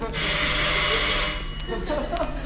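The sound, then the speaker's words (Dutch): A telephone rings while a caller waits for it to be answered: a bright, loud, buzzing bell lasting over a second, then breaking off, with shorter bursts after it, all over dense background noise. “Je zou zeggen, hij weet dat we hem bellen. Dus hij zou wel ogenblikkelijk naar het toestel hollen om het zo vlug mogelijk op te nemen.”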